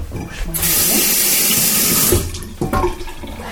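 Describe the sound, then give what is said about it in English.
Water gushes from a kitchen tap as hands are washed during guacamole preparation: a loud, steady splash lasting about two seconds, then cutting off, followed by a few soft handling sounds. “Wash my hands again.”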